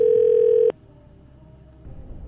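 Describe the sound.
A telephone line tone sounds as a call is placed: a steady, loud tone holds for under a second and then cuts off abruptly, leaving a faint hum before a low rumbling noise rises near the end.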